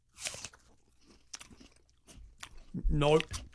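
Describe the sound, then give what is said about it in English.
A crisp bite into an apple sprinkled with salt, a loud crunch followed by quieter wet chewing, then a brief voiced sound near the end. “So what I want you to do is pick up your apple. Apple and salt. This should taste like French fries.”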